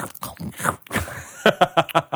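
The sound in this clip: Someone bites into a raw carrot, producing several crisp, sharp crunches in quick succession toward the end.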